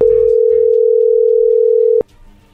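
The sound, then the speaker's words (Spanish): A telephone dial tone sounds while a call is being placed, a steady single-pitched hum held loudly for about two seconds before it cuts off abruptly, leaving only faint background noise. “a ver, ahí se está marcando, vamos a ver qué dice Alejandra”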